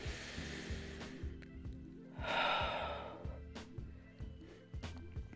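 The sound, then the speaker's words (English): A slow breath in and out during a guided forgiveness and healing meditation, soft and airy, with the exhale swelling and fading over a faint, low, pulsing background drone. “Now I want you to breathe in and out. And again.”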